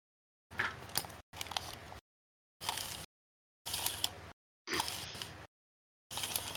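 Calipers being handled to measure a large 33-millimetre die: six short bursts of scraping, clicking metal-and-plastic noise, each about half a second to a second long, separated by dead-silent gaps, with no voices.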